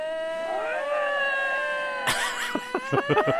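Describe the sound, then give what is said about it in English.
Two wild lynx call to each other. A drawn-out, wavering feline wail rises slightly at first, then harsher bursts and a series of short, pulsing yowls join over the continuing cry. “It's the sound of two lynx, the wildcat lynx.”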